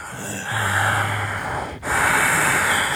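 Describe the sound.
Heavy breathing from a caller into a telephone, a deliberate menacing style: long, hissing, noisy breaths drawn in and pushed out, with a brief catch between two breaths, fairly loud and with no talking.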